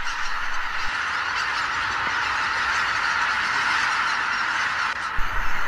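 A huge flock of teal ducks, said to number about 100,000 birds, calls in a dense and continuous chorus. Countless overlapping calls merge into a loud, steady roar that holds an even level throughout, with no voices.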